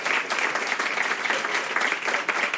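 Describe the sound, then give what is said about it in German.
Audience applause at a comedy show: a dense, steady wash of clapping that runs without a break for the whole stretch, loud and unbroken by voices. “Den Applaus merken wir uns und dann halt den Applaus gerne einfach noch 3-4 Sekunden länger, lass sie gar nicht zum Reden kommen.”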